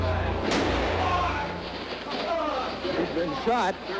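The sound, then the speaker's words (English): A gunshot rings out in the basement of Dallas Police Headquarters as Lee Oswald is shot. A sharp, loud crack stands out near the start amid dense crowd commotion and shouting voices. “He's been shot. Lee Oswald has been shot. There's a man with a gun. Absolute panic here in the basement of Dallas Police Headquarters.”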